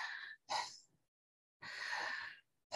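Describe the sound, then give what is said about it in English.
Breathing demonstrated in a connected-breath technique: a few loud, airy inhales and exhales in quick succession, one longer drawn-out breath in the middle, with no talking. “The connected breath does a little bit more because of this cycle, and you don't actually stop the breath. It sounds like,”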